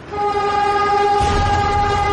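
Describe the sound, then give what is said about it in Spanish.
A train approaches on city rail tracks, sounding a loud, steady horn-like tone that holds throughout while a low rumble swells in from about halfway through. “¿Un tren? ¿Un tren?”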